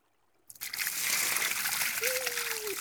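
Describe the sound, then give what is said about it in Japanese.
Hot water is poured over a seated person before a bath. After a brief silence, a rushing, splashing flow starts abruptly and continues steadily to the end. “はい、それじゃあ座ってください。お湯をかけますよ。”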